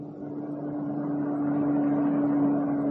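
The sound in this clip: A car engine runs on a bargain car priced at $425, giving a steady low hum with a constant droning tone. The sound grows slightly louder over time, with no voices.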